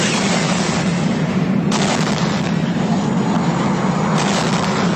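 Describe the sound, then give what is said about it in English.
A loud, steady roar of a rocket exploding in a great ball of fire as it collides with a spaceship. The dense, rumbling blast noise holds unbroken for the whole stretch, with no voices. “A tiny rocket. Something hurtling towards it. A great ball of fire. They're gonna collide.”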